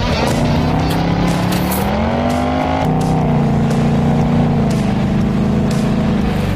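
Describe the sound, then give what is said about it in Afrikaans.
A Ford Mustang GT's 5-litre naturally aspirated V8 revving, a loud, continuous throaty rumble whose pitch climbs, drops sharply partway through, then holds a steady, growling drone, with no voices. “It's an amazing sound. Absolutely incredible. Ons sit hier so in die Mustang 5 liter V8 GT.”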